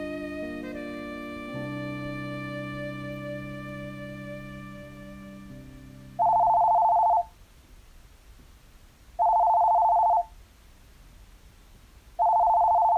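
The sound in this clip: A home landline telephone rings in three evenly spaced bursts of steady, mid-pitched electronic tone, separated by quiet gaps. Sustained, fading musical tones come before the rings, and the last burst is cut off.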